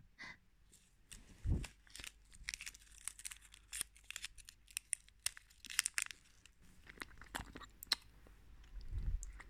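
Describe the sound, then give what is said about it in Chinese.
Someone eating a lollipop candy: soft, wet chewing and crunching with many small irregular clicks and crinkly snaps, fairly faint and without any talk. “在吃糖呀。就和照片里我放进去的那个棒棒糖是一个口味的呢。”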